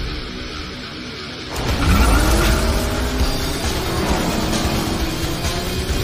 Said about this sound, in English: Track is rigged and ready. Race is live in 3, 2, 1.